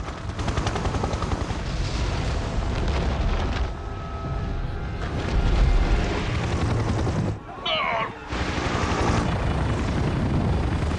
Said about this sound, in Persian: کوه داره فوران میکنه، کنترلم از دست دادم، پشتیبانی میخوام.